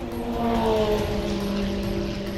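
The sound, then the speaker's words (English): Racing cars speed past the pits, making a loud, steady engine roar. Several tonal engine notes drift and overlap, holding the drone at an even level throughout. “Fans pack the stands near the racing pits, watching the brave racers speed by.”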